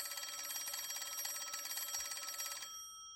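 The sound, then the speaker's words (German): A telephone bell rings in a hallway with a continuous rapid rattling trill for about two and a half seconds, then cuts off abruptly; faint and alone. “In diesem Moment klingelte dort das Telefon.”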